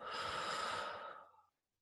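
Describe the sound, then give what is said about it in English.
A single slow, audible exhale during a guided breathing exercise: one steady, soft breathy rush that tapers off and ends in silence. “Exhale with me now. And inhale. And exhale.”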